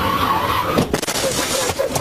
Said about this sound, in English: another vehicle comes crashing towards him. After losing control on the icy road